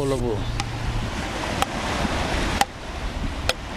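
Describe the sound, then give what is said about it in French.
Wooden matkot paddles hit a ball on a beach, four sharp, dry knocks spaced roughly a second apart over steady wind and surf hiss. A brief voice is heard at the start. “Là, c'est le son des matkots, les raquettes en bois omniprésentes sur la plage et devenu un quasi-sport national.”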